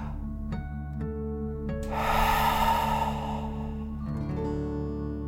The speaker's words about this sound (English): Fill up your belly. Deep breath in and out.